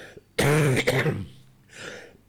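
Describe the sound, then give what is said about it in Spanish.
A person has a coughing fit with throat clearing: a long, harsh, raspy burst is followed by a softer, shorter clearing of the throat. “Reitero mis disculpas, voy a tener habitualmente estos accesos de tos.”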